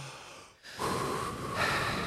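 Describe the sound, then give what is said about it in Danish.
A couple of deep, slow breaths taken before going in. The soft, airy inhales and exhales are faint and heard alone. “Bare pust et par ganger før vi går inn.”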